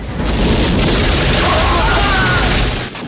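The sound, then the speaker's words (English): A grenade explodes in a Rambo action film, blowing up near the hero. It makes a loud, sustained roaring blast with heavy low rumble that runs almost unbroken for about three seconds before cutting off abruptly. “Kurov fires a grenade which blows near Rambo and sends him flying.”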